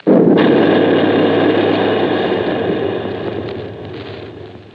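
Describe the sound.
An artillery shell is fired and explodes: a sudden heavy blast opens into a dense, rumbling roar that slowly thins and fades over several seconds.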